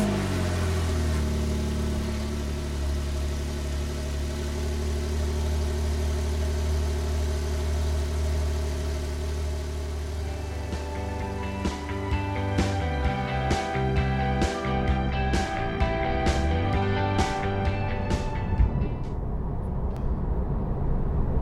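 A 2016 Porsche Carrera 4S engine running at idle, a steady low, layered hum. In the second half it takes on a rougher, busier texture. No voices.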